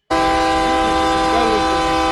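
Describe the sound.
A train horn sounds abruptly after a split second of silence, then holds as one loud, steady, multi-toned blare that does not waver until the end.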